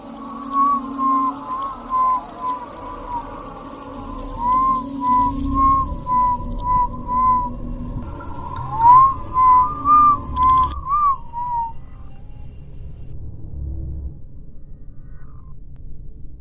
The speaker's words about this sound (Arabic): بعد كده بدأت أسمع صوت حد بيصفر.